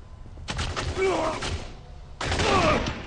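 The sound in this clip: Gunfire in a video game comes in two sustained, noisy bursts of shooting. The second starts abruptly after a short lull, and voices are mixed in.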